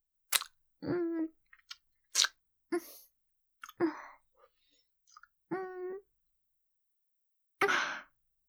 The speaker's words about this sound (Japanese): キスだけで力抜けちゃった。